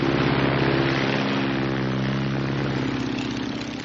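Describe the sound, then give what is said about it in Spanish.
Biplane taking off: a steady, throbbing propeller-engine roar, loud and unbroken throughout, easing slightly toward the end. “Al día siguiente, el biplano de Dennis despega.”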